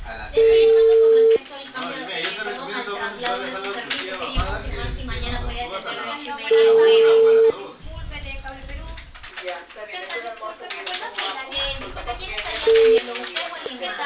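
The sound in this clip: Ringback tone of an outgoing telephone call: three steady mid-pitched tone bursts, each about a second long with the last clipped short, spaced several seconds apart over continuous dense sound on the line.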